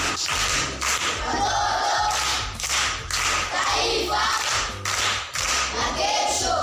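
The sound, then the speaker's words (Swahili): Applause from a crowd of children and adults at a primary school gathering where pupils recite proverbs. Dense, steady clapping fills the whole clip at an even level, swelling and dipping slightly, with no talk over it. “Makofi kwa shangazi.”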